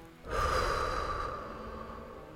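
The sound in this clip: Calm, slow breathing during a guided relaxation exercise: after a brief quiet moment a single long, airy breath begins, soft and steady, then gradually tapers away, with no speech.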